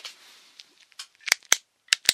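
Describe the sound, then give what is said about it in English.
Sharp clicks made near the ears for a hearing click test during a cranial nerve exam. Four crisp, bright clicks land in the second half at uneven intervals, after a few softer rustling taps. “If you'd like, I could do a click test on your hearing.”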